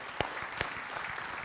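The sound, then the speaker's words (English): A church audience clapping, a brief, steady patter of many hands with a couple of sharper individual claps standing out near the start. “Give the Lord a big clap.”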